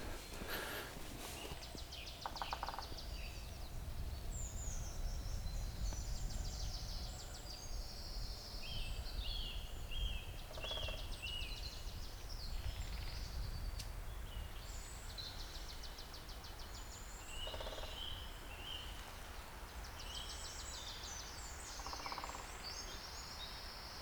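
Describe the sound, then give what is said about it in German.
Several woodpeckers peck and drum in a few short bursts of rapid tapping, mixed with high bird chirps over a steady, noisy background. “Das sind ja mindestens 3 Spechte. Einer da ganz hinten, jetzt einer hier direkt vor mir”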